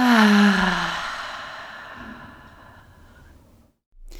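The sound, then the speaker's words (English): Deep breath let out slowly during a guided breathing exercise, a breathy voiced sigh that fades gradually over about three seconds, then a brief silence. “Last one, the deepest breath you've taken all day. Suck in a little more air and let it all go.”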